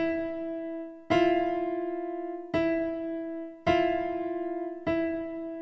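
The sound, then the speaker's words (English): A piano plays the notes E and F natural together, a harsh, clashing interval. The chord is struck four times at a slow, uneven pace, and each strike rings out and decays before the next. “If you were to do the impossible and try and play that part on a piano, it would sound something like this. The note E and the note F natural together.”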